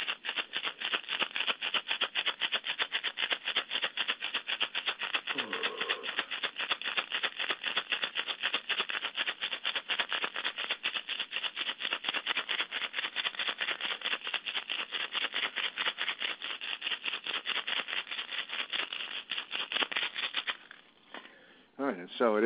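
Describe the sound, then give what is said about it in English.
A hand rattle shaken in a chakra healing session gives a fast, continuous dry patter of even strokes for about twenty seconds, then breaks off as a voice starts near the end. “And I'm just going to use this rattle one more time.”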